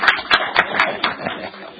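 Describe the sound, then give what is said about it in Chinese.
Brief applause from an audience at a committee gathering welcoming a new secretary: a handful of distinct claps that soften and fade within two seconds. “而家入咁嚟嗰位，我哋俾啲掌声佢好唔好啊？”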